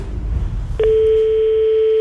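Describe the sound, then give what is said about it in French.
A telephone line tone sounds as a call is placed to a correspondent in Kigali: a low hiss gives way to a single clear, steady tone that holds unbroken to the end. “On a appelé il y a quelques instants notre consoeur de RFI en poste à Kigali.”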